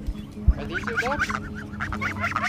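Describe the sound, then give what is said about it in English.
Domestic geese honk in a busy, overlapping cluster of nasal calls, several birds calling at once at a moderate level, with no talk. “A few minutes later, she wanted to show me her geese.”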